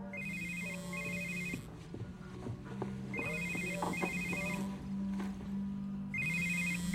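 A telephone rings in three separate bursts, each made of bright, repeated electronic trills, over a steady low background rumble.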